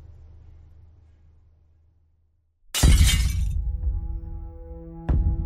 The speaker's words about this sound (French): Un verre vint s'éclater contre le mur de la loge de Louise, bientôt rejoint par une bouteille de parfum à moitié pleine.